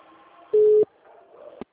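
A telephone tone signals an incoming call: a single short, steady beep at one pitch, fairly loud, followed by a faint hum and a sharp click.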